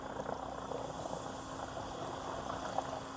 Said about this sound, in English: Kurt Hallberg and Anders Iver demonstrate in the laboratory how a WorldJet nozzle can add air into water already at a low pressure.